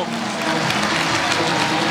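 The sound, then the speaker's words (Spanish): A stadium crowd applauds Lionel Messi as he waves during a lap of honour. Steady clapping blends with a broad, continuous crowd roar at an even level. “Ahí saluda Messi. La gente lo aplaude.”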